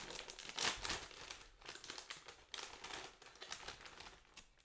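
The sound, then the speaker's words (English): A bag of Snack Day crisps is ripped open, giving faint, continuous crinkling and tearing rustles with a sharper crackle near the start. “So I just rip it open.”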